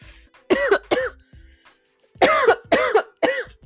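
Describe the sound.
Coughing and throat clearing from a person with a tickle in the throat, five hoarse, voiced bursts in two groups, two close together and then three more after a short pause.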